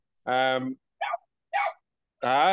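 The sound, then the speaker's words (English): Dogs barking: four separate barks with clear pauses between them. Two longer, fuller barks frame two short, clipped ones, all fairly loud and with no talk over them. “Sorry about the dogs, though.”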